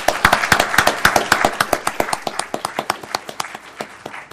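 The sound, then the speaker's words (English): Audience applause for a group of young people, many distinct, fairly even claps in a loose rhythm that ease slightly in loudness toward the end. “could the audience give these young folks a good hand?”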